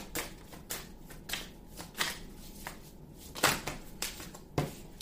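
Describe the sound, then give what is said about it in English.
Playing cards are shuffled by hand while a clump keeps falling out, giving soft, crisp riffles and flicks in uneven bursts, fairly quiet overall, with a few sharper slaps standing out. “A clump of cards keeps on falling out.”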